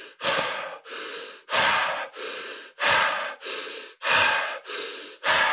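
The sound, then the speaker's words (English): Fast, loud, exaggerated breath work through the mouth: many rapid, forceful breaths alternate between harsh inhales and exhales in a steady, driving rhythm, with no other sounds. “I'll breathe real loud and exaggerated so you can tell what I'm doing. So the breath work breath at a high speed would be like.”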